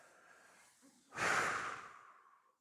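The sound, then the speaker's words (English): A single deep breath: one long, breathy rush of air that swells quickly, holds, then slowly fades out, loud against near silence. “Take a breath.”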